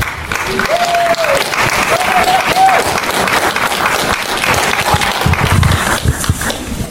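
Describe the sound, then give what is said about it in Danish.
Applause welcoming the first speaker, a member of the Danish parliament, at a public gathering: loud, sustained clapping and crowd noise continue for about seven seconds, with a few voices rising through it. “Så derfor så vil jeg gerne byde velkommen til vores første taler, Torsten Gejl, som sidder i Folketinget for Alternativet. Sig rigtig hjertelig velkommen til Torsten Gejl.”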